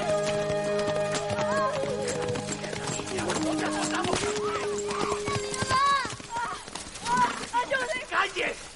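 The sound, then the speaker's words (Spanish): Horses pass at a walk beside a sugar cane plantation with their hooves clopping in an uneven, continuing rhythm. Music plays underneath, with sustained tones that give way to brighter melodic notes as the clopping grows more prominent. “Simón y María Teresa pasan a caballo cuando el capataz está azotando a una mujer.”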